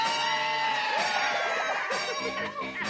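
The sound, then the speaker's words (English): A studio audience at the Pee-wee's Playhouse Christmas Special screams loudly on cue for the secret word, a sustained mass of many high, overlapping shrieking and whooping voices at full volume that holds for nearly three seconds. “whenever anyone says a secret word, scream real loud”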